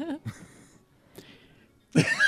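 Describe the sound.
Throat clearing comes as a few rough, raspy bursts of moderate loudness, separated by short quiet gaps, before a voice starts speaking.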